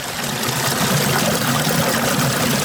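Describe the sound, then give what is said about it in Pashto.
Water flowing over big stones in a stream, a loud, steady rushing wash that stays constant throughout without voices. “غټ غټ کاڼي په دې خوړ کې پراته دي او اوبه ور باندې راتویږي دا ژغې به تاسو اوري”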